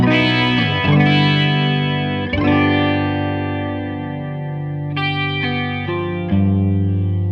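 Sustained chords ring through a TTC Electronic Limited Edition chorus flanger pedal set to its lowest speed. A few struck chords decay slowly with a gentle, wide shimmering sweep and no talking.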